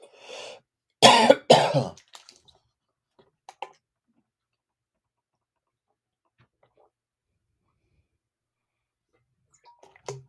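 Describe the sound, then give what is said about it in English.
A few harsh coughs and a throat clearing burst out in a short cluster to bring up phlegm from a scratchy throat, then near silence follows with only faint small noises. “Get that phlegm out.”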